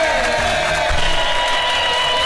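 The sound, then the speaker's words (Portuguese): An audience claps and cheers to celebrate Radio Presenters' Day, a dense, steady wash of clapping that stays loud throughout the short clip. “Mas hoje eu quero palmas, porque hoje eu comemoro o dia do radialista.”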